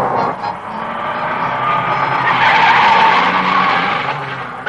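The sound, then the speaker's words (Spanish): A car driving off, a broad rushing engine and tyre noise that builds to a peak midway and then eases away. “Eric va en su coche y enciende sonriente la radio”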